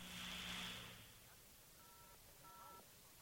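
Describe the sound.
A few faint push-button telephone dialing tones, keyed while trying to reach an operator, sound briefly and softly over a steady background hiss.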